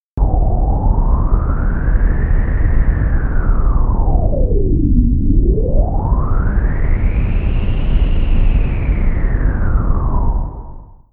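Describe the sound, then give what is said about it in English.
Data sonification of one day's tidal cycle from a seafloor bottom pressure sensor: a loud, steady noisy tone that glides down to a low point midway, then climbs to a higher peak and falls again before cutting off. “Let's listen to a tidal cycle as measured by a bottom pressure sensor over the course of a single day. The data sonification will sound like this.”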